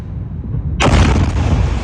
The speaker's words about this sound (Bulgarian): Видео от социалните мрежи показва момента, в който ирански ракети и дронове се разбиват в американска база в Йордания.